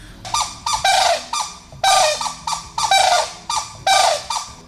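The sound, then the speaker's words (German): A pair of birds calls back and forth at the nest while swapping incubation duty, a duet of loud, harsh, nasal calls in many quick bursts with short gaps between them. “Das war der Wachwechsel am Nest und dabei haben sie nochmal gesagt, ah, du auch hier, haben nochmal sich gegenseitig bestätigt und einen kurzen Gesang aufgeführt.”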